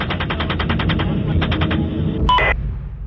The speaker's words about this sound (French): Ok, vous avez l'autorisation d'ouvrir le feu. Ils obtiennent le feu vert et transforment la scène en bain de sang. Allez, feu! Tire encore, tire encore.